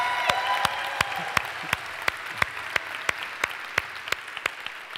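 A church audience applauds to welcome other church campuses: steady applause with sharp, evenly spaced claps standing out above the softer wash of hands.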